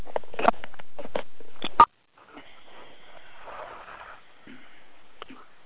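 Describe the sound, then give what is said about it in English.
A long, deep breath taken during meditation comes as a soft, airy rush of air lasting several seconds, after a brief stretch of louder, choppy sounds. “So now, palms together. Long, deep breath.”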